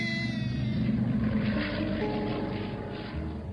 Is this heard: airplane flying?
yes